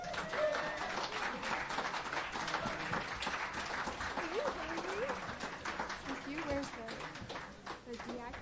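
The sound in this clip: Audience applause welcoming a performer to the stage at a songwriters' night. Dense, steady clapping runs throughout, with a voice heard over it.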